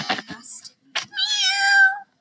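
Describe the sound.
A voice imitates a cat meowing: a few short vocal bursts, then one long, drawn-out, high meow with a wavering tone, fairly loud, ending in silence.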